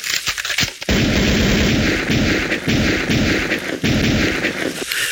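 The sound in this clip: A weapon fires with a sudden loud blast just under a second in, followed by harsh, sustained roaring noise with a few brief dips in level until the end.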